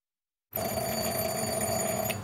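A doorbell rings at a house on the outskirts of a village, starting abruptly and holding as one continuous, steady electric ring with a bright metallic tone.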